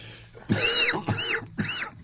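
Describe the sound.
A person coughs three times, evenly spaced: short raspy bursts of moderate loudness, each with a rough, throaty texture and no talk between them.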